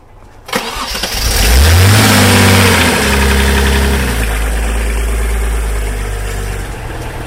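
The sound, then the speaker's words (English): A diesel engine on a hydraulic road-rail access platform cranks and fires, then revs up with a rising whine before settling into a loud, steady idle. “everything on the machine is driven by hydraulics. The drive functions, the lift and the slew functions. Okay, let's start it up.”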